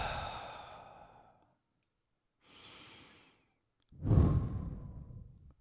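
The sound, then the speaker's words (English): Breathing after a drink of water: three breaths with quiet between them, first a long exhale that fades, then a soft short breath, then a heavier sighing exhale that tails off. “sorry for the extraneous noise. Just taking a drink of water here. Breathing.”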